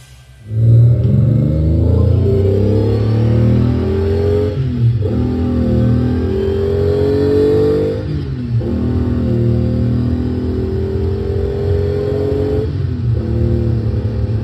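A car engine revving and accelerating hard during aggressive driving, a loud continuous roar whose pitch climbs in stages, broken by three brief dips that sound like gear changes.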